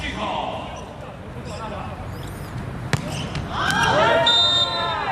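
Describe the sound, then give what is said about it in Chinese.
A volleyball serve lands in for a direct point in a match involving the China team, a single sharp thud over constant crowd noise, which swells louder just after the impact, with voices talking throughout. “孟子华发球直接得分，这个直线球发在界内。”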